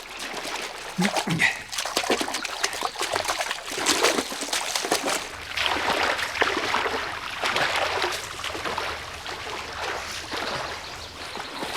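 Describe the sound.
Water sloshes and splashes as a person wades into a lake carrying a shovel, with steady, irregular splashing and trickling throughout.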